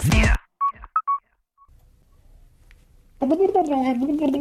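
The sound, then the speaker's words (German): A telephone ringing: a short run of high electronic beeps in a quiet gap between people talking. “Das ist mein Telefon.”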